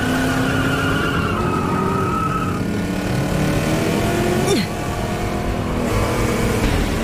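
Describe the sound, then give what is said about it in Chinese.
An autonomous race car drives in an aggressive mode, its engine giving a steady loud roar with little silence throughout. “这是自动赛车。”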